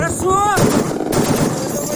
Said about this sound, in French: Sur ces enregistrements réalisés par les artilleurs, on aperçoit l'unité en action. Les balles fendent la nuit par leur lumière orange vers le drone en mouvement.